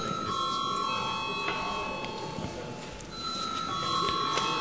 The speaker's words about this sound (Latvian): Lūdzu zvanu.